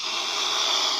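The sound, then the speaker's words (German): A female swan hissing near her nest as a boat comes close: a steady, breathy, unbroken hiss that holds at an even, fairly loud level throughout, with no other sounds. “was ihr da hört, ist ein Schwan. Genauer gesagt, eine Schwänin. Die war stocksauer, als wir mit dem Boot ziemlich nah an ihr Nest gekommen sind.”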